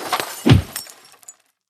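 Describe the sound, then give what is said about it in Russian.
A glass bottle of sparkling wine shatters as it is smashed between two men's heads, a sharp crash followed by a few scattered tinkling shards that quickly die away into silence. “Звон битого стекла, брызги игристого вина, удивленные окровавленные морды. А оказывается, одной бутылкой можно разбить сразу две тупые головы.”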